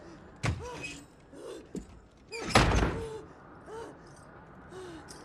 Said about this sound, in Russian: Джо Гейдж, давай сюда, закрой люк в подвал.